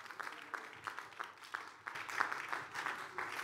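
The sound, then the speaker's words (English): Faint clapping from a church audience: scattered, uneven hand claps arrive in loose bursts at a low level, thinning and picking up again across a few seconds. “Oh, somebody's clapping for Jesus Christ.”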